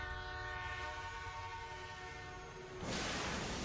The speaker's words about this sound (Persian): قطار همچنان در حرکته. قطار رد میشه